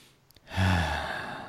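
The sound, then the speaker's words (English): A deep breath drawn in alone, a soft breathy rush that swells quickly and trails off over about a second. “Let me take a deep breath real quick.”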